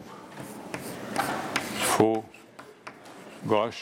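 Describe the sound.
Writing on a board during a technical lecture on gear transmissions: a series of short, scratchy strokes of varying length, with brief bits of speech in between.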